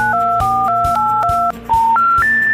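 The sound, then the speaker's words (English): Loud telephone touch tones dial a number. A quick run of six tones is followed by a short pause and then three more, each a steady two-note beep over a low hum. “go ahead and dial that number we gave you.”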